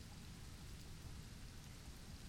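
Steady rain falls in an even, unbroken hiss with a soft low patter underneath, fairly faint and heard alone.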